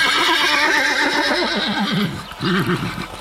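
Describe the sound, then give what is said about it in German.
A human voice imitates a horse's neigh. The loud, wavering whinny holds for a couple of seconds, breaks briefly, then returns in a shorter second burst. “Das Wiehern gelingt mir so gut, als hätte wirklich ein Pferd gewiehert.”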